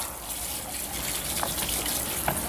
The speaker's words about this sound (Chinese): 我听不清，我洗澡呢。